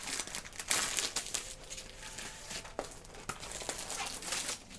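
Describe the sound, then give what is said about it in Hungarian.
Paper crinkles and rustles as a paper building instruction booklet is unfolded, with several sharp crackling bursts over a soft, continuous rustle. “Kénytelen leszek kibontani az építési útmutatót, hogy kivegyem belőle a matrica ívet.”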